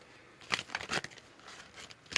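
A tarot deck being shuffled and cut, heard as a few soft, papery riffling bursts with brief pauses between them, fairly quiet throughout.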